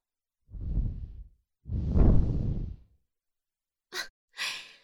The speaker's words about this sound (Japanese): 黙ったままでいるなら、吐息を、いっぱい、ふうふうしちゃうよ。